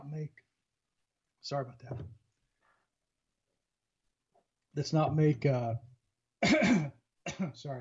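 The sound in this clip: A man coughs and clears his throat after swallowing something, a few short rough bursts separated by silences, with brief speech in between.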